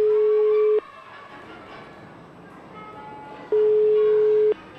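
Ringback tone of an unanswered telephone call to the managing director of a nursery school: two long, steady tones separated by a gap of nearly three seconds, over a low background hiss.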